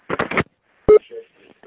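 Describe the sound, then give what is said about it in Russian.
Short telephone tones beep on a mobile phone line after a brief burst of voice-like sound. A few clipped, mid-pitched beeps are spaced apart. “А это сотовый, наверное. Видишь, ну, гудки какие идут.”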